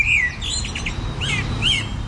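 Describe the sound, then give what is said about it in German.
Eurasian blackbird song: short whistled and chirping phrases, some sliding in pitch, over a constant low background hiss. “Die Amsel, das finde ich ganz nett, ist bei uns die Nummer 1. Und die Amsel ist auch eine Vogelart, die ist quasi überall erlebbar.”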